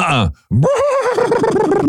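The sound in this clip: A person vocally imitates a horse neigh: a brief voiced burst, a short silence, then a loud, long whinny with a trembling, wavering pitch that carries to the end.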